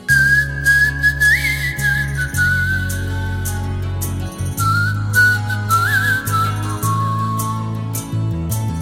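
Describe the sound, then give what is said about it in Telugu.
Someone whistles a tune, a clear, loud, wavering melody with short slides between notes over a steady low background tone. “ఇప్పుడు విజిల్తో నేను tune ఇస్తాను, నువ్వు దానికి పాట పాడాలి, సరేనా?”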